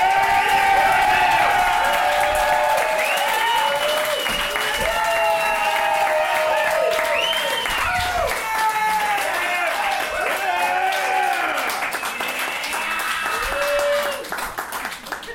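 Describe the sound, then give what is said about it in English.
Audience applause and cheering greet a performer welcomed to the stage. Dense, sustained clapping mixes with many whoops and shouting voices throughout, easing off near the end. “Shut up, you can't clap again.”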